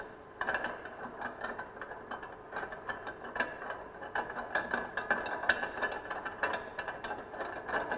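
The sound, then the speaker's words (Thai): Ratcheting clicks as the locking part of a machine is loosened and a tube turned out to remove its tank for cleaning: a long, continuous run of many quick mechanical clicks, fairly faint, with no voices. “เราต้องหมุนหลอดออกก่อนนะครับก็คลายตัวล็อกนะครับคลายตัวล็อกนะครับ”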